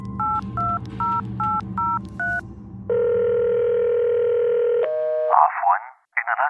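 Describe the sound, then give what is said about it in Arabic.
Touch-tone dialing for a phone call: six short two-tone beeps in a quick run, then a long, steady telephone tone, then a brief recorded voice on the line. “اتصل كرو بكيسي فكانت المفاجأة سماعه للرسالة التالية”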